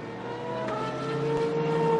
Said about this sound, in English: So Molina trying his level best to find some life in the car, but it doesn't sound like it's an easy process.